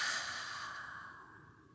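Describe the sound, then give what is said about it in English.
A deep, breathy exhale through an open mouth during a relaxation breathing exercise, soft and airy, fading gradually over under two seconds, with no voice. “Open the mouth, exhale, release.”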